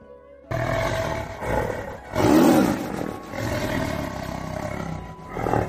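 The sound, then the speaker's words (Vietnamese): A tiger roars: a loud, rough roar that swells to a peak partway through and trails into a long, growling rumble, with no voices. “Hóa tinh man hổ gào thét, hổ trảo phát sáng”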